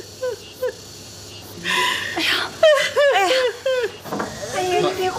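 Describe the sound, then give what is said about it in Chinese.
An elderly woman cries, with sobbing and wavering, high-pitched voiced wails that rise and fall in short bursts and grow more continuous toward the end. “妈， 你别哭。 奶奶别哭”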